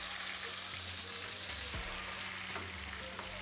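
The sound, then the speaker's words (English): Oil sizzles and crackles steadily in a hot pan as seasoning is added, a dense hiss running throughout with a few faint clinks and stirring sounds underneath. “While our oil is heat up, add the seasoning.”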